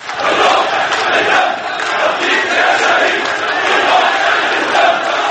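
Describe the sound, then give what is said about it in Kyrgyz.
A large crowd of activists shouts slogans at a funeral in Syria for people killed by security forces. The voices merge into a dense, continuous roar that swells and dips in uneven pulses. “Сириянын коопсуздук күчтөрүнүн колунан курман болгон 9 адамдын бейшембиде болгон таажасына 20 миң чамалуу адам чогулду. Активисттер Кудай, Сирия, эркиндик деп кыйкырып турушту.”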